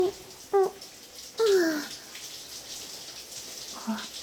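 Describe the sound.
Running water rinses soap foam off hair and skin during a hands-on wash. The soft, steady hiss is faint, with a few brief louder swells near the start and end.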